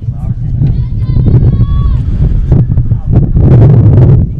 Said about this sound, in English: As the wind is blowing straight in.